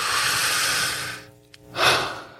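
A slow breath let out during a guided breathing exercise: a long, soft, airy rush that gradually fades, a short pause, then a second fuller breath of air.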